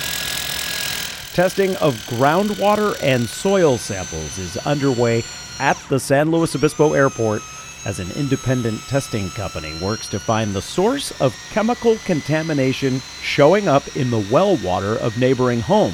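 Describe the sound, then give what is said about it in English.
Drilling equipment sampling groundwater and soil on the southern edge of an airport makes a steady mechanical grinding and rattling that runs under a narrator's voice throughout. “That's the sound of drilling equipment located this week on the southern edge of the airport.”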